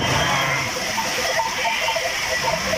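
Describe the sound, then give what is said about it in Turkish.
Sheep bleating from a flock of 650 rescued with two shepherds after heavy snow on the Sultan Dağ highland near Isparta, faint repeated bleats over a steady background noise. “İki çoban ve 650 koyun saatler sonra kurtarıldı.”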